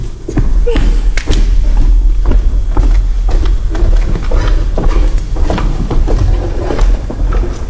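Heavy knocking on a door, with a series of dull thuds and taps over a loud, steady low rumble.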